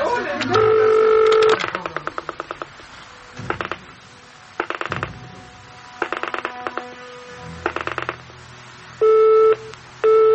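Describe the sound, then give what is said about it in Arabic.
Telephone tones with a busy signal: repeated bursts of beeping tone separated by uneven gaps, mixed with short dialing-like tone pulses, fairly loud and sounding alone. “عفوا التليفون مشغول.”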